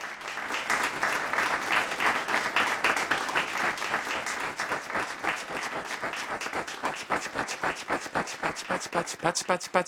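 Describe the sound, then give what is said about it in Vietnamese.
Applause from a group clapping together: a dense, continuous crackle of many hands for about ten seconds that thins toward the end into more distinct, separate claps. “Đây là một từ tượng thanh dùng để diễn tả tiếng vỗ tay.”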